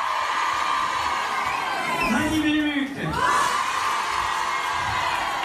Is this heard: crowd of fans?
yes